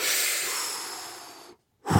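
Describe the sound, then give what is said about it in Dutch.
Someone takes a deep breath in: a long, airy hiss lasting about one and a half seconds that slowly tapers off, then a short silence before another breathy sound begins. “Even voor de mensen thuis. Adem even in.”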